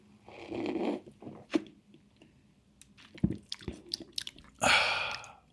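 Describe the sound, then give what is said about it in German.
A big sip of a cloudy, golden sparkling drink: wet slurping and squishy mouth sounds, scattered small drips, then a louder fizzy gulp near the end. “Ich nehme jetzt einen großen Schluck.”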